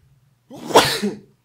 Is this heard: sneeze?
yes

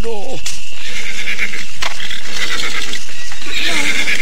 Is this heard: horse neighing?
yes

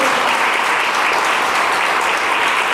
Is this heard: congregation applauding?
yes

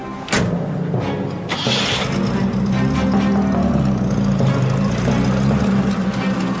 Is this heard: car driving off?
yes

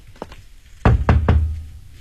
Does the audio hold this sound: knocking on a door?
yes

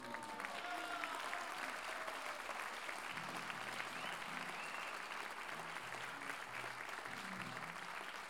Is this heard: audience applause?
yes

